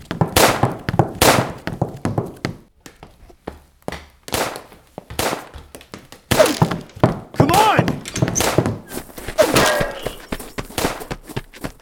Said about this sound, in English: Is someone shooting at us?